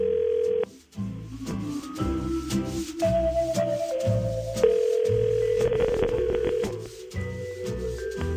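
A phone line dials out for a beach-trip prize draw: a steady dial tone and a run of tones over a busy, rhythmic background, with no voices.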